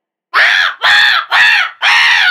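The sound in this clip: A voice imitating macaque monkeys, giving four loud, harsh, screeching calls in a steady rhythm, each one swelling and then falling away, with no other sound.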